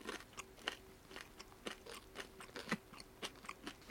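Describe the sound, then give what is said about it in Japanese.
Biting and chewing a burnt, blackened homemade pancake: many crisp, irregular crunches and soft chewing noises, fairly quiet, with no talk. “その真っ黒いパンケーキをいただいてください。いただきます。”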